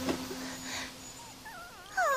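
A person imitates a puppy's whimper with a few thin, wavering high whines. They are faint at first and grow louder and shriller near the end, with no other talk.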